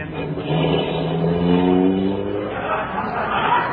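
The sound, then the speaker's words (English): A car engine sound effect for a radio comedy roars as the car drives fast, a steady revving drone that swells slightly in the middle and holds throughout. “Hey, you better drive slower, Herky. I'm very nervous. Now, watch out. Now, you don't hit something.”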